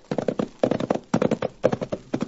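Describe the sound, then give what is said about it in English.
Horses' hooves clip-clopping on a tough ride from a small town up into the hills, loud hoofbeats falling in rhythmic clusters of three or four with short gaps between them. “Cherokee talked me into riding from Dos Rios up into the hills where Scott's diggings was located. It was a tough ride, but a pleasant one.”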